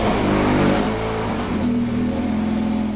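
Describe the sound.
A rally car engine roars during a sprint rally stage, a loud, steady mid-pitched growl with strong harmonics whose tone shifts midway and then holds even to the end.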